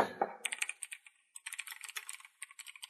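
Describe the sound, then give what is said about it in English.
Quick, faint clicks of typing on a computer keyboard come in rapid bursts of keystrokes, broken by a short pause partway through, with no voices present. “Yeah, you could type. You could literally type it in.”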